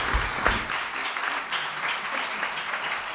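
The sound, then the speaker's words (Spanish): Applause for two local associations at a special community event in Fitero: dense, steady clapping that fills the whole clip at an even level, with no clear pauses. “El primer aplauso para las dos primeras asociaciones que han estado con nosotros.”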